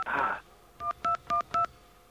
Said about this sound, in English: let's see what we get if we dial an information operator. Let's get a dial tone.